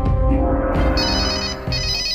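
A telephone ringtone sounds alone: steady, loud electronic tones that repeat, with the pattern of higher tones shifting as it continues.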